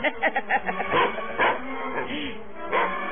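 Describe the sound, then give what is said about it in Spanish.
A dog barks and snarls in a drama scene. A rapid run of short, sharp yapping bursts comes first, then longer, rougher vocal sounds follow, with some voice-like sound faintly underneath. “Me gruñas, perro asqueroso. Te dije que no me ladres ni gruñas.”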